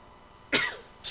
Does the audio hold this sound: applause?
no